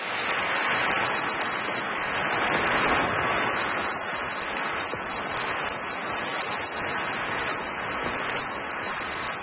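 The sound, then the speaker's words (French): A reconstructed soundscape of a Jurassic forest: a steady, high-pitched chorus of insect chirping over a soft, rain-like hiss, with no voices. “Et ils sont allés même jusqu'à reconstituer le paysage sonore d'une forêt de cette époque. Ça donne à peu près ceci.”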